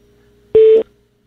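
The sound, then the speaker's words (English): A telephone answering system plays a single voicemail beep, a steady mid-pitched tone lasting about a third of a second, loud and alone. “Leave a message after the tone.”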